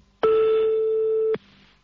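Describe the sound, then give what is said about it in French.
A phone call rings out to a mobile phone over a poor-quality CB radio link, heard from the caller's side. One steady mid-pitched tone holds for about a second between sharp clicks, with no voices. “Attention, on refait sonner de nouveau le portable de Sandy. Attention, c'est reparti.”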